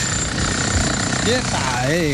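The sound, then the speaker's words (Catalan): Construction work in a radio studio, a jackhammer-like pounding rattle that runs loud and continuous, with a wavering mechanical whine surfacing near the end. “Això que escolteu són les obres que estem fent els del Ja som aquí a l'estudi.”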